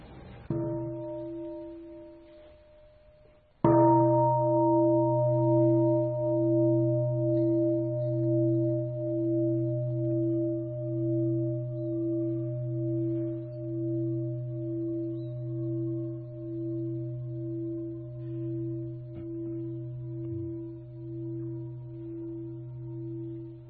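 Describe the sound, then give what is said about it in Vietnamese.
A meditation bell at a Buddhist dharma talk, struck more than once, each strike giving a bright attack followed by a long, low, humming ring that pulses gently and fades slowly in near silence. “là tôi thỉnh ba tiếng chuông.”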